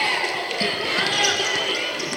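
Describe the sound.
A basketball is dribbled on the court during a game, a few dull thumps beneath steady crowd noise and a commentator's voice.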